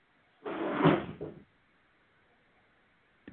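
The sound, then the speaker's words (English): A trash can gets knocked over, making a single loud clattering crash with a brief rattling tail, followed by quiet and a short knock at the very end. “Excuse the noise there. That was my wonderful fiance knocked over the trash can.”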